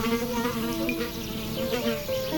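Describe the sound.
A horsefly buzzes in a continuous, steady drone with a wavering pitch and rich overtones. It holds at an even loudness throughout, with no voices.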